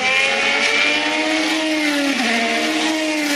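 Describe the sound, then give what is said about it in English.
A Formula One race car engine whines at high revs, giving a loud, steady, strongly tonal note that dips briefly in pitch in the latter part before settling again. “The traditional sounds of Formula One racing are slowly giving way to the sounds of Formula E.”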